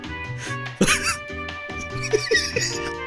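A cough from fizzy drink going up the nose: one sharp, loud cough bursts out over steady, upbeat background music, which carries on afterward.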